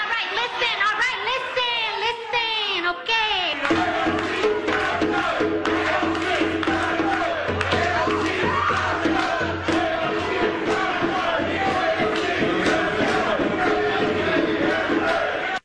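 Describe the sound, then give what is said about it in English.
A crowd at an Alexandria Ocasio-Cortez town hall shouts and chants loudly, with overlapping raised voices and some laughter above a steady stream of sharp percussive hits. “here's an AOC town hall. It used to be in her liberal district. She had fabulous warm and fuzzy town halls. Now they sound something like this.”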